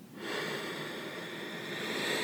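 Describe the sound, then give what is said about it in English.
A deep, slow inhale through the nose during a guided breathing exercise, heard as a steady, soft, airy rush lasting about two seconds with no talk. “Another deep breath in.”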